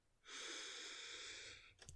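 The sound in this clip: A deep cleansing breath, one long airy rush of air lasting about a second and a half, faint and alone, trailing off at the end.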